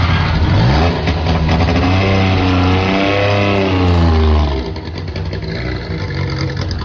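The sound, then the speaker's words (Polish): A Syrena 105 small car engine runs loud and continuous, its buzzing note climbing and then falling as it revs, before settling into a lower, rougher idle for the last couple of seconds. “zjechała ostatnia Syrena 105, nazywana królową polskich szos. Ach, na ten dźwięk łezka się wokół kręci.”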